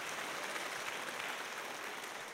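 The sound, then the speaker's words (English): A church audience applauds during a sermon. The clapping forms a dense, steady wash with no distinct single claps. It stays fairly faint and even throughout, with no voices standing out. “Go ahead and clap. Give the Lord a hand while I get a water break here.”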